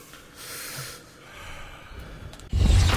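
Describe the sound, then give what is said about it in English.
A deep breath: a long, airy inhalation swells and fades, then a louder, rougher rush of breath closes it. “Deep breath.”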